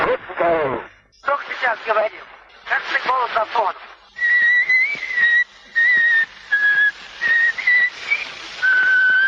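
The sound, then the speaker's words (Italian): Whistling on an 1890 Edison phonograph recording, with a voice speaking briefly before a series of short, high whistled notes broken by small gaps, all over faint surface hiss. “Un paio di frasi, un fischiettio, e questa è la voce del grande Tchaikovsky registrata nel 1890”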